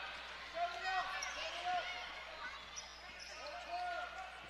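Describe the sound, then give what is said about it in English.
A basketball dribbled on a high school court during a game, a steady series of dull bounces under crowd noise while people talk over it. “Top of the key, picks up the dribble.”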